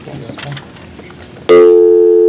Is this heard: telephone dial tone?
yes